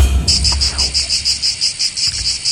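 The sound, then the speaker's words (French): Cicadas chirp in a shrill, high buzz pulsing in a fast, regular rhythm, steady and moderately loud throughout, with no voices. “Bah oui, c'est les cigales. Bah oui, c'est les cigales, bien sûr.”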